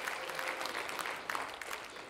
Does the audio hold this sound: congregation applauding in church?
yes